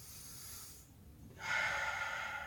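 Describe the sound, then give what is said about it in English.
A group takes a deep breath together during a guided spiritual blessing: a soft, airy inhale, a brief hush, then a fuller, longer exhale. The whole breath stays faint and hissy, with no speech. “Let's take the sacred breath together.”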